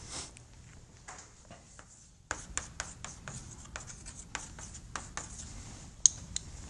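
Lines being drawn on a board: faint, quiet scratching strokes, a few sparse ones at first, then many short, sharp strokes in an uneven rhythm.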